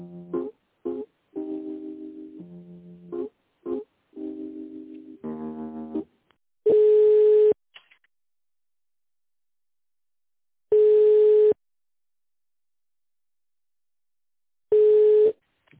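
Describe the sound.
Telephone tones play while a call is transferred to a finance department. A short run of electronic tones shifts in pitch, then three long, steady ringing tones sound alone, about four seconds apart.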